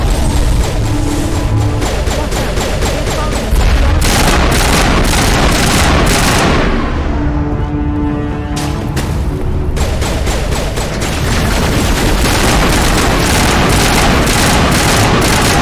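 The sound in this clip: Turret gunfire in a video game: dense, rapid volleys of shots and heavy booms keep a constant loud roar, with a brief thinning of the shots midway before the firing resumes at full intensity.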